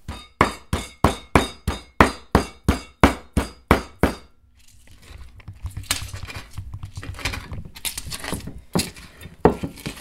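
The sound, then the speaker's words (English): Heavy pestle strikes pound onion, pepper, garlic and tomato into a paste in a large mortar for a Ghanaian dish: a fast, steady run of many sharp knocks, then irregular scraping and grinding, with no voices. “it's kind of like a gigantic mortar and pestle, and so we kind of just like grind all the ingredients together into like a paste.”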